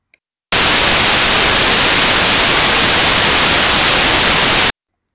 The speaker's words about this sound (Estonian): Kuulame nüüd nii nimetatud valget müra.